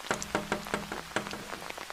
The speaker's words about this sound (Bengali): খুব জোর বৃষ্টি হচ্ছে